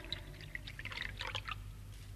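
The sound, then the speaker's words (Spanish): Water is collected into a glass, a run of bright, irregular drips and trickling plinks over a steady low hum. “¡Eso es! ¡Está recogiendo el agua en un vaso!”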